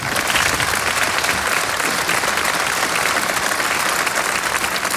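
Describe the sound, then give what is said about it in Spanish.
A large crowd at a political rally in a Torrente film scene claps steadily and densely, a continuous wash of applause at even loudness throughout. “Es un mítin, hay mucha gente y lo que estamos escuchando pues es a todas esas personas que están aplaudiendo.”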